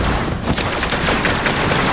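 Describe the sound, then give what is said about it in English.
Video game gunfire from a big gun: a dense volley of sharp, cracking shots fired in quick succession, loud and continuous over a steady noisy background. “Holy man! It's the gun I just told you about.”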